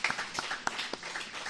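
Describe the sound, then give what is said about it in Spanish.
Scattered hand claps from a group of residents at a care-home celebration, clapping for a radio broadcast, a few sparse, irregular claps, quiet and short. “Aplaudimos para que nos oigan en COPE.”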